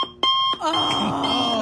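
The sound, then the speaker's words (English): An alarm clock goes off, starting with a couple of short, sharp tones before breaking into a loud, continuous, shrill ringing that fills the rest of the moment. “That sound is like a nightmare for me. From my earliest memories, that alarm clock sound”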